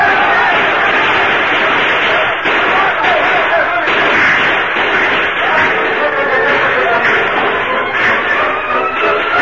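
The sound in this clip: Rifle gunfire in a Lone Ranger radio drama battle at a mine: a dense, continuous barrage of loud cracks and thuds blurring into a noisy din that stays at constant intensity throughout.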